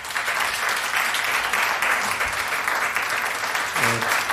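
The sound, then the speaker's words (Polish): Audience applause greets a performer at a live radio music event: dense, steady clapping that stays loud and even for the whole stretch, with no break and no talk over it. “Dominikę Czajkowską i brawa dla tej pani”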